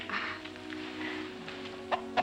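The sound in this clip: Soft clucking from a calm fighting rooster outside the ring, close to a hen: two brief, faint clucks near the end over a low steady background hum.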